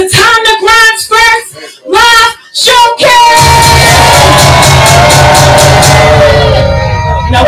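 Crowd cheering and whooping at a live music showcase: a loud, sustained wall of shouts and whoops rises right after a host's shouted call, then holds steady to the end.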